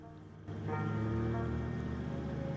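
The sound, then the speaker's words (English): A taxi cab's engine pulls away, its low drone swelling suddenly after a brief quiet stretch and then holding a steady, rumbling hum with no talk. “Mohinder drives off.”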